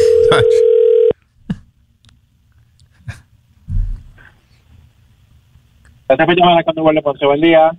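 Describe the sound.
A telephone ringback tone on an outgoing call: one steady, buzzing electronic tone lasting about a second, followed by near silence and a few faint knocks, then a voice talking near the end.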